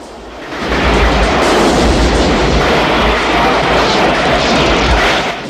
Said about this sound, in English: The helicopter explodes and crashes to the ground.